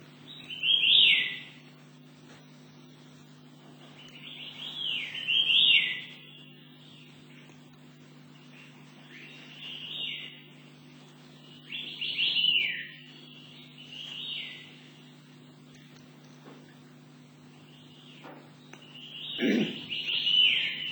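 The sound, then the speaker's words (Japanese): Calls of a white-eared sibia, a Taiwanese bird, come as short, high, chirping phrases repeated at irregular intervals over a steady low hum, fairly quiet overall. “ミミジロチメドリの声をお聞きください。チチオっていう声です。”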